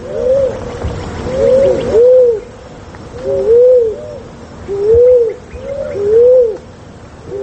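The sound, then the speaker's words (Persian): A turtle dove, a brownish-pink bird, coos in low, soft, rounded phrases. Several calls repeat at a fairly regular pace against a faint steady background. “اکنون درباره قمری، پرنده خوش سیما و خوش صدا که به رنگ نسواری و صورتی مایل به خاکی است”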